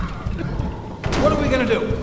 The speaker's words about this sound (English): Lobby door! There's rubble against it, and they're still pounding on it!